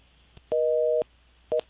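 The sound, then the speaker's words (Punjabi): A telephone line tone sounds as a phone-in call drops: a steady, two-pitched electronic beep lasting about half a second, then a short gap and a second, much briefer beep, alone and fairly loud. “Don't know what's happening, Y ਦੀਸ calls R dropping.”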